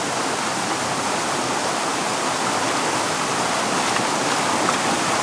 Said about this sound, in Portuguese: Vai em direção a uma pequena cachoeira.